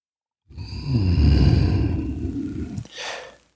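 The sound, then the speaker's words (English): A slow, deliberate breath during a guided breathing exercise: one long, airy rush lasting about two seconds, then a brief, softer puff of air before silence. “Taking another disciplined breath in, holding it, releasing”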